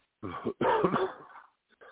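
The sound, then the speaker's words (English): A harsh cough after a deep breath during a spoken prayer over a person, heard as two loud, rough bursts, the second longer, followed by a faint short tail of sound. “Deep breath and cough. Deep breath and cough is how we do.”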